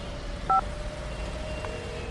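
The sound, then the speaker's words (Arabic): A telephone number is dialed on a keypad: one short, clean two-tone beep, then a much fainter blip, over a quiet steady hiss with no voices. “اطلب بقى منى”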